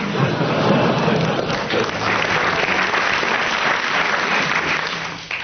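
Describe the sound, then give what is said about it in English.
Studio audience applause during a quiz game, thick sustained clapping that holds steady and dips slightly at the very end. “You're getting bonuses of 10 marks each every time the audience applauses, so carry on.”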